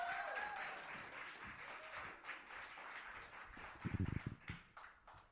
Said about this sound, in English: And we applaud the poet again. And keep that applause going as we bring up the next slammer of the first round.